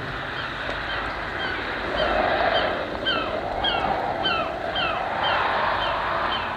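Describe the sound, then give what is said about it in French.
Sea waves rushing up a sandy shore make a steady broad roar that swells in places, with a run of short, repeated bird cries over it. “regardez la mer qui accourt par la grève. comme c'est beau.”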